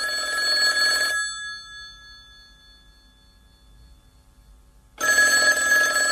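A telephone rings in two loud bursts with a pause of about four seconds between them. Each ring is a bright, bell-like trill, and its tones linger and fade away in the gap.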